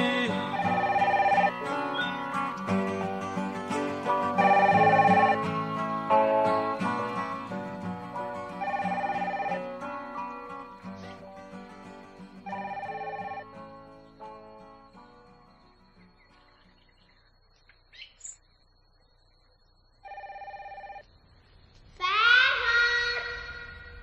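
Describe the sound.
A telephone rings after music fades out, with two short bursts of ringing near the end, the second louder than the first.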